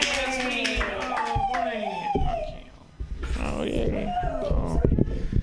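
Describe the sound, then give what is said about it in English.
A comedy show audience claps for a comedian as he is introduced, with applause under a voice cheering and talking, dipping briefly before rising again. “Put your hands together for Ian Levy.”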